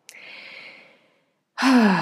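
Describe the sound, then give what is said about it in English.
A deep breath, a soft airy exhale, starts abruptly and fades away over about a second. After a short silence, a voice begins speaking. “I'm just going to take a deep breath with that as I feel that.”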